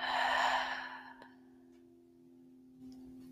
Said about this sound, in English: take a big inhale breath through the nose and fill up every crevice inside your body with a soft jaw. Exhale through an open mouth.